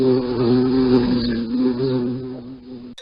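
Bee buzzing: a steady, fairly loud droning hum with a low, slightly wavering tone that continues for about three seconds without talk.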